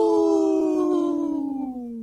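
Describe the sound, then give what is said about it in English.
A human voice imitates a wolf howl: one long, sustained tone that slowly falls in pitch and wavers as it trails off. “Howl! That was a good howl.”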